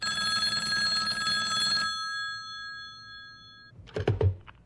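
A telephone bell rings in a bright, sustained, metallic ring that fades out after a few seconds, followed by a brief clattering sound near the end.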